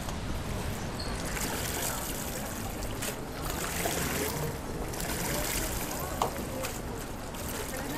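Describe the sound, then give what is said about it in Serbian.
Sea water laps steadily at the shore, a continuous soft wash of water with no distinct breaking waves standing out. “Jako je lijepo sjediti uz more.”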